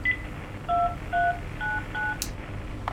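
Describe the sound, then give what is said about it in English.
Telephone keypad tones from dialing an extension to transfer a call: a faint first beep, then four clear, evenly spaced, short beeps at different pitches over a steady background hiss, followed by a couple of soft clicks. “I dialed the extension, and I hit transfer. Transfer and then the number?”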